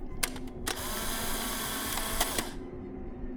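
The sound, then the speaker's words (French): A Polaroid instant camera takes a photo of a cellar room: a few sharp clicks, then a steady motorized whir that cuts off after about two and a half seconds. “Je sors mon Polaroid et je prends une photo.”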